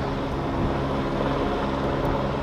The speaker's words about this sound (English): We got helicopters flying around here.